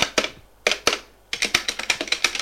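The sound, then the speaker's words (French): Keys tapped as a name is typed on a keyboard: a few separate clicks first, then a quicker, even run of many crisp taps, with no talking. “Et elle tape le nom de Judith.”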